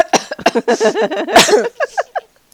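Sputtering, choking coughs from someone who inhaled a drink through the nose: a rapid run of harsh bursts with voiced, gasping sounds between them, trailing off into a few shorter coughs.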